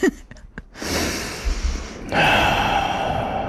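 A deep breath taken during a guided breathing exercise, heard as two long, airy, breathy sounds lasting several seconds in total, fairly loud and close, with no talking over them.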